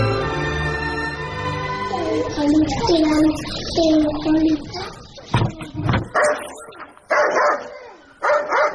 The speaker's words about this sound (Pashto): دا سپی دې در وګرځوه چې ومې نه داړې. راځه راځه، نه دې داړې.